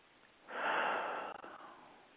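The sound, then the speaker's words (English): A single deep cleansing breath taken during a guided relaxation exercise. The airy, hissing breath rises quickly, holds briefly, then tapers off unevenly, fairly faint and with no talk. “Just some two or three of these nice cleansing breaths, allowing the thoughts to move away.”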